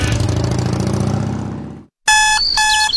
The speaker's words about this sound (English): Wait, don't hit snooze.